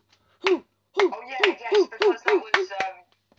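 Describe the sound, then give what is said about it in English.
A voice imitates the Icelandic football fans' clap chant with a string of short, punchy 'hoo' shouts, the first spaced apart and the rest coming faster in a steady beat. “do you remember the Icelandic clap as well? That became big, wasn't it, that tournament? It was like, whoa, hoo, hoo, hoo, hoo,”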